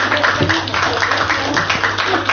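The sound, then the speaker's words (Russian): Audience applause after a talk, a dense run of many claps at a fairly even pace, moderately loud, with a low steady hum underneath. “Сразу за аплодисментами последовали вопросы.”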